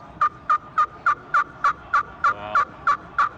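Eleven sharp, evenly spaced turkey yelps from a walnut pot call worked with a two-piece custom striker, each a loud, clear note in a steady, rhythmic run.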